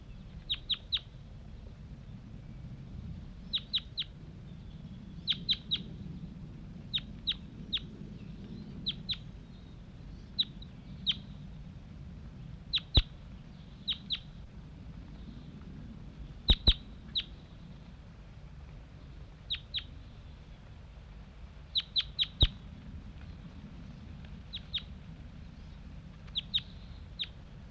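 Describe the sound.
Short, high chirping calls from birds just freed from a mist net and flying off, repeated many times in brief clusters. The calls are fairly faint over a steady low rumble.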